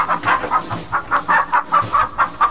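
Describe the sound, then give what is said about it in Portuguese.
Chicken clucking comes as a quick, regular run of short, mid-pitched clucks, fairly loud and with no voices. “Galinha.”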